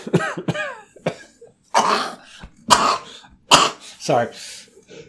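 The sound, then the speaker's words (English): Several harsh coughs and throat-clearing bursts from one person, loud and separated by short pauses, with no other sound between them. “Sorry, a little something caught my throat there.”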